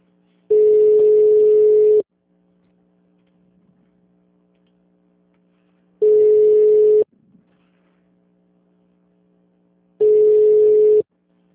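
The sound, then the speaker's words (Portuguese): Telephone line tone while a call is transferred to an operator: three long, steady, loud beeps, the first longest, separated by pauses of a few seconds, over a faint constant low hum. “Por favor, aguarde. Estamos transferindo a sua tá ligação. Com a telefonista.”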